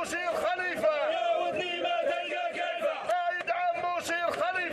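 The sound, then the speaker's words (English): A crowd cheers and chants for General Khalifa, leader of the Libyan National Army, with loud massed voices shouting in rhythmic bursts that repeat throughout. “They're cheering on General Khalifa, who is the leader of the Libyan National Army, which is the Libyan army and the Libyan government, too.”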